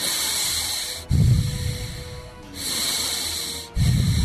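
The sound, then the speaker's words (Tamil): Deep breaths drawn in and let out by a patient during a doctor's examination for chest congestion, a rough, airy rush that swells and fades in a repeated rhythm, with no talk over it. “கொஞ்சம் மூச்சை இழுத்து விடுங்க.”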